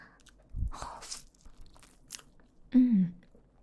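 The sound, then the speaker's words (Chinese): Someone bites into a homemade cake made with mango, giving a few soft crunching and chewing bites, followed by a short murmured hum with falling pitch. “自己亲手做的蛋糕怎么能不吃？来，这个给你，这给我，尝一口”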